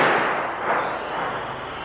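A gunshot fired at an alligator near water comes through as a dense, crackling burst of noise that stays loud for the whole short clip.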